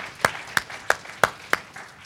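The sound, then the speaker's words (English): Five sharp, evenly spaced hand claps at a church service, each a crisp slap separated by short quiet gaps, fairly soft overall. “Let's give him a round of applause, amen?”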